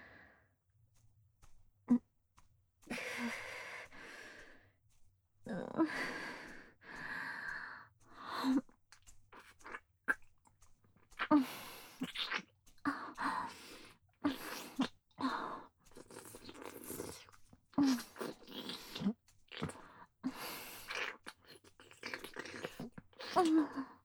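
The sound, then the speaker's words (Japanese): Slow, wet licking mouth sounds come in bursts separated by short silences, soft smacks and moist clicks that rise and fade unevenly throughout. “もっとゆっくりこすりながら丁寧に全体を舐めさせていただきます。”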